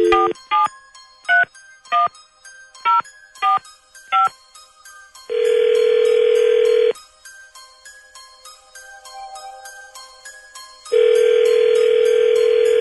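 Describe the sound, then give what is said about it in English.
A telephone is dialed for a random call: a quick series of short touch-tone beeps, then two long, steady ringback tones separated by a pause. “Dialing at random.”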